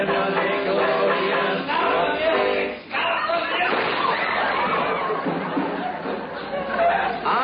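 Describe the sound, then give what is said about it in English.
A single sharp gunshot sound effect in a radio comedy bursts out briefly amid continuous music and talking voices. “You shot him.”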